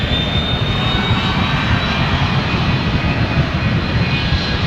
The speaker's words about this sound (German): wenn der Pilot die Starterlaubnis bekommen hat, geht's los. Dann gibt er Gas.